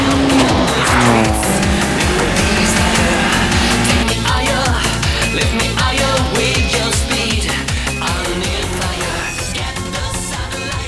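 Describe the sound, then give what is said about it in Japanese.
Racing cars, one a GT-R, speed through a three-way street battle in Gunma with high-revving engines and screeching tires, a continuous loud roar with shifting engine pitch and squeals that are most prominent early on. “高橋涼介が飛び出していったぞ。 2台の後ろを追走する気だ。”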